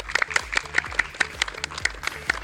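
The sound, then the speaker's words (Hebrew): An audience applauds at a public event in Holon, with many sharp claps falling into a steady, regular rhythm at a moderate level. “ממלא מקום ראש העיר חיים סברלו, שהוא יושב ראש תנועת ש"ס, תנו לו מחיאות כפיים חבר'ה”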